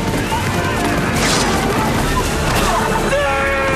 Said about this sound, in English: Gant fires his Winchester.